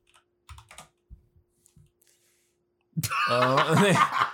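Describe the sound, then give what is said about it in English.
Keystrokes on a computer keyboard as someone types a search term: a few light, irregular clicks spaced out over the first couple of seconds, then a louder voice takes over at the end. “I'm just gonna type in Ralph's.”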